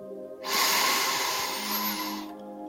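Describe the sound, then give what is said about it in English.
A single slow, deep inhale through the nose lasts about two seconds as a steady, breathy rush, with faint sustained tones under it. “I want you to inhale for a count of five.”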